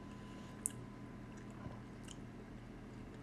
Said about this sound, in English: So let's try the strawberry cream. Strawberries in it. You see, you don't know what it's like to have a Whitman's box of chocolates